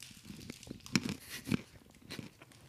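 Biting and chewing a Duplo chocolate bar held close to the microphone: two loud, crisp crunches stand out among softer crackling chews, with no talking.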